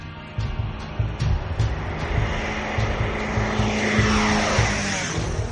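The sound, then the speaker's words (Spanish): Airplane flying over dense forest canopy, its engine giving a loud, continuous droning hum that holds steady the whole time with no voices. “Su equipo pilota un avión sobre las densas copas de los árboles.”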